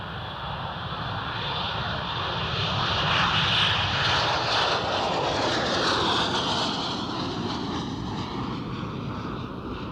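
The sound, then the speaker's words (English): A propeller aircraft roars as it takes off from a runway: a loud, continuous engine drone that swells slightly midway and whose tone shifts steadily, with no voices. “You're clear for takeoff on runway 4, Jimmy. Take her up nice and easy.”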